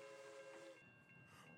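A locomotive sounds a sustained multi-tone horn chord as it arrives, then the horn cuts off abruptly. Quieter rolling train noise continues after it, and the whole effect is faint.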